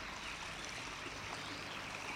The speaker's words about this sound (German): Das frische, klare Wasser, was munter an dir vorbeiplätschert.